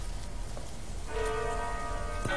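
A city clock bell chimes the hour over steady rain. The hiss of rain runs throughout, then a bell stroke enters partway through and rings on with sustained metallic overtones.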